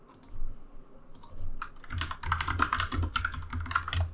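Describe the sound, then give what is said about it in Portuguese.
Typing on a computer keyboard to enter "Jeff The Killer" into a Google search: a few scattered clicks, then a dense run of rapid keystrokes. “Nesse momento aqui eu vou digitar Jeff The Killer no Google e aí eu aviso para vocês se é realmente assustador.”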